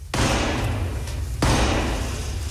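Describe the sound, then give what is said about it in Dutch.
A ceremonial ebony staff knocks on the door of the House of Commons: two loud, heavy blows about a second apart, each followed by a sustained wash of sound. “Hier hoor je het geklop op de deur.”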